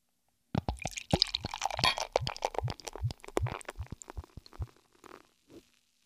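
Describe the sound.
Beer glugs from a freshly uncorked bottle into a glass in many bubbly, irregular plops and splashes that begin loudly, then thin out and grow fainter toward the end.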